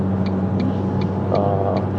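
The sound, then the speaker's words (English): Steady low road rumble and engine hum from inside a car driving on a highway in New Jersey, with a regular light ticking of five clicks running over it. “And I do apologize if you guys hear me, you know, hear the background. I'm currently driving to work.”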